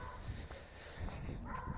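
Dogs barking outdoors, a few short barks and yips breaking through heavy, steady wind buffeting the microphone.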